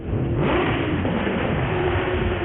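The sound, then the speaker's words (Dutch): Expensive cars rev their engines and speed through Rotterdam, producing a continuous, loud, muffled engine roar that holds steady without a break. “Maar dan komen al die bakken, die dure bakken, komen allemaal binnen. Dan gaan ze even demonstratief gas geven en hard rijden.”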